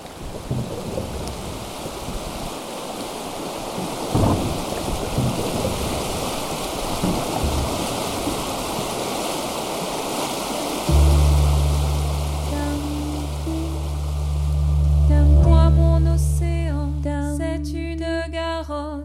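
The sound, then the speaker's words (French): The Garonne river in flood rolling gravel downstream: a loud, continuous, rushing roar with deep rumbling, and music entering and building over it in the latter part. “Les graviers qui sont plus hauts, hein, ils descendent, ça fait un bruit assourdissant.”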